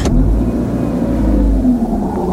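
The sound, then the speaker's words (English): A car engine running hard as the car, slid into a snowbank, tries to get back onto the road: a loud, steady low rumble and drone with no voices. “We hit the snowbank awful hard. I know. The car just started sliding, and I couldn't stop it. So now what? I gotta get the car back on the road.”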